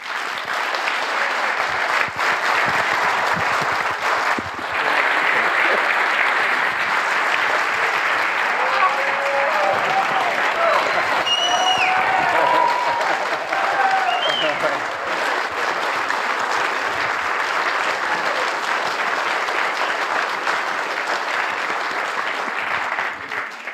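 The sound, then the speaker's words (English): Loud, sustained applause and ovation from an audience welcoming Judge Andrew P. Napolitano to his opening lecture at a summer event. The dense clapping holds steady and even for the whole stretch. “The trick, of course, is to get an ovation like this at the end.”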